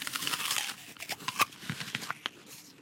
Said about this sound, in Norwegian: OK, jeg tar min bit ut, bare sånn at jeg ikke blir helt stille og bare sånn smatting i mikken.